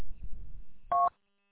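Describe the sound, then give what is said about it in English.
A single short dual-tone electronic beep, like a phone keypad tone, cuts over a radio call line, caused by feedback from two running radios; low rumbling noise precedes it, and silence follows. “Is that you beeping?”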